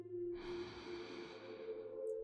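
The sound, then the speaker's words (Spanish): A deep inhale during a guided breathing exercise, a steady airy rush lasting about two seconds over a faint sustained tone. “Inhala.”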